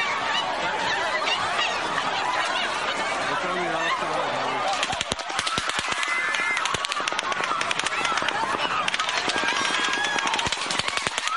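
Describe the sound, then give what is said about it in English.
Automatic machine gun fire during a hotel shooting crackles in rapid, dense bursts that continue through the second half, loud over a noisy, clamorous background. “I have several more clips of the audio from that day where you can clearly hear machine gun fire. Some people argue it may have been belt-fed machine”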